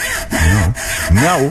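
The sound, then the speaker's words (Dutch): A saw cutting through a tree trunk, heard as a couple of long rasping strokes with a wavering, whining tone that rises and falls as the blade moves. “Nou, ja, die boom gaat er bijna aan. De zaag, ja...”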